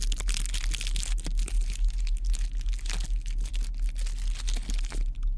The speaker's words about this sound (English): Here, let's have a cosmic food bar, since we still have a long way to go.